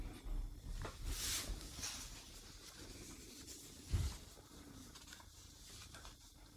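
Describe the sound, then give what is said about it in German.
A pen scratches busily across paper in faint, continuous strokes with small taps and rustles, and one dull thump partway through. “Ja, ich höre da auch geschäftiges Schreiben.”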